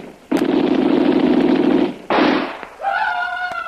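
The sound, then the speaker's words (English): Gunfire as a sound effect in a radio drama: a long, loud burst of harsh, crackling blast noise, then a shorter burst, followed by a steady harmonic whining tone. “I know that bullet wasn't wasted. When that hit, it spun him half around before he fell.”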